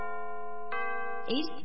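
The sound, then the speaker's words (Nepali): A radio time-signal chime marks six o'clock in the morning: sustained, bell-like harmonic tones that are struck afresh twice in the second half, ringing clearly and steadily. “साहिनो समय सूचक। अहिले बिहानको 6 बज्यो”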